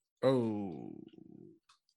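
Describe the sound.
A dog gives a brief, fairly quiet groaning vocalization: a tonal whine that slides downward and breaks into a low, rattling growl lasting a little over a second, followed by a faint click.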